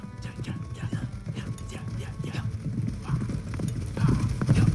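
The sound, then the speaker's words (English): Hoofbeats of horses galloping in a samurai charge drum in a fast, steady rhythm, many overlapping thuds building slightly louder toward the end. “the samurai surged forward, splitting into two determined halves. One faction galloped towards the east, the other towards the west.”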